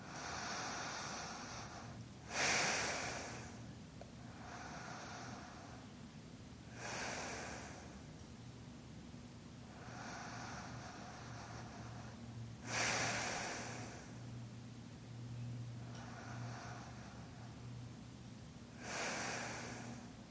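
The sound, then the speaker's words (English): Slow, deep breathing during a yoga class, with four loud, airy breaths spaced several seconds apart and softer breaths between them. A low, steady hum runs beneath, and no one speaks. “Slow breath, deep breath.”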